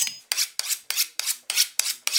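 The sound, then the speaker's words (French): A knife chops an onion for eel Provençal in eight rapid, evenly spaced strokes. Each stroke is a crisp, raspy slicing burst, and no one talks. “Première étape, hacher l'oignon.”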